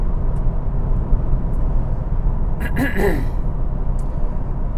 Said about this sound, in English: I'm on the freeway with all the maniac drivers.